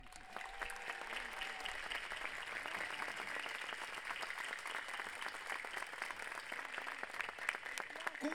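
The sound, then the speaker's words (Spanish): Applause from a concert audience honouring a choir and its director at a Chilean guitarrón song performance; dense, continuous clapping runs quietly and evenly through the whole clip. “pido un aplauso muy sentido y a Axel Holm, su director.”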